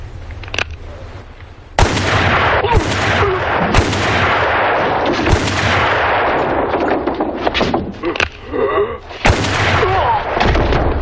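Gunshots in a western radio drama: several sharp, loud cracks at irregular intervals over a continuous rumbling, noisy background, with other bursts of noise between them.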